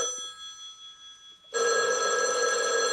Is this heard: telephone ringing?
yes